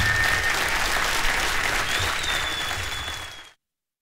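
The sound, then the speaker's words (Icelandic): Audience applause for the singer KK at a concert in Harpa: thick, steady clapping with a brief high whistle partway through, tapering slightly before stopping abruptly after about three and a half seconds. “KK, já, já, já, klappum fyrir honum bara.”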